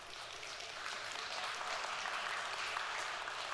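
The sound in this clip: Audience applause: a dense, steady patter of many hands clapping that carries on evenly for the whole clip without a break.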